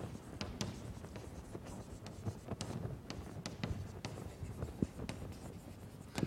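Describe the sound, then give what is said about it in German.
Handwriting during a lecture, faint scratchy strokes with many short, irregular scrapes and taps in a continuous run, no talk. “Lassen Sie mich mal hier in Klammern dabei schreiben, approximativ.”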